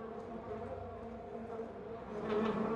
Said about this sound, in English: Wasps cover the glass panel above the kitchen door as Heather approaches it.